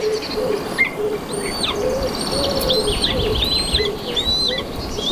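Bird calls in a forest during the breeding season, where buzzard nestlings are being fed a lizard carcass: many thin high chirps and whistles over a steady, dense background, with repeated lower cooing notes.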